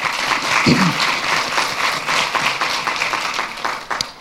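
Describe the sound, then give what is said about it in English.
Audience applause at a New York Historical Society event: dense, steady clapping from many hands that holds at an even level throughout and thins slightly at the very end. “Let's give them all a hand.”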